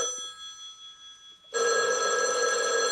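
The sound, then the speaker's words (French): A telephone rings as a call is placed to a police station: a bright, steady electronic ringing tone, faint at first, then suddenly loud and continuous through the second half. “Vers 11h30, un plombier appelle les gendarmes de Chinon.”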